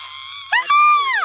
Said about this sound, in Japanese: これ声帯に来る叫びだ